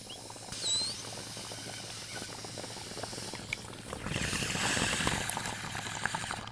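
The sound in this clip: Water bubbling in a bong as someone smokes from it: a steady, gurgling patter with hiss running throughout, growing louder and busier in the second half.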